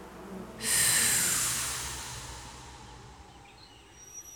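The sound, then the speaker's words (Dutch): A deep, slow breath through the nose, one long airy rush that starts abruptly and fades gradually over a few seconds. “Dan nemen we een diepe adem in door ons neus. En als we uitademen”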